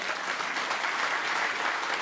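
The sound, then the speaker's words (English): Brief, dense applause with clapping hands blurred into one even, bright roar at a steady level from start to finish, with no voices over it. “Okay, I got to applaud that one. That was pretty good.”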